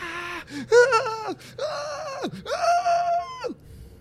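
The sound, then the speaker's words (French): A voice imitates a cry resounding through a cauldron, producing several drawn-out, wailing vocal cries. Some cries end in a sharp downward pitch slide, with short gasping breaks between them, and no other voices are heard. “Vous entendez soudain un cri qui résonne dans toute la marmite et vous entendez vraiment ce cri faire”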